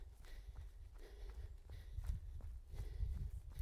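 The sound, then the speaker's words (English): Footsteps of a runner pushing through thick ferns, a steady rhythm of faint thuds mixed with rustling and swishing foliage that continues throughout. “I'm going through really thick ferns.”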